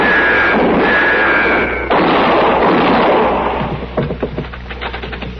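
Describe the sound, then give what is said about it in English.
A gunshot rings out from a barn roof in a Western radio drama: a loud crack near the middle of a dense, noisy stretch, followed by fading rumble and a few smaller thumps. “You got him. He fell clean off.”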